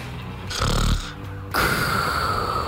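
A man snores: two loud, rasping snores, the first short and the second starting after a pause and continuing to the end.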